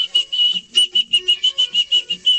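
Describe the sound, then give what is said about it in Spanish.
A woman whistles a quick tune of many short, bright, high notes in a brisk, bouncy rhythm, with clear gaps between the notes and no talk. “Ella sí chiflea bien. Eso sí la voy a felicitar. Para chiflear número uno”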